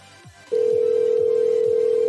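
Ringback tone on an outgoing phone call: after a brief quiet moment, a loud, steady mid-pitched tone starts and holds unbroken to the end.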